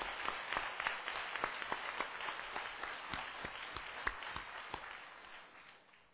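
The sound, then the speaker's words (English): Audience applause welcoming a symphonic band: a dense, steady wash of many hands clapping, with sharper individual claps poking through, holding level before thinning slightly at the end. “我们给他掌声，特别是我们为着 Moody 这个 band 来到为他们来到欢迎。 Yeah, let's welcome the Moody Symphonic Band as well.”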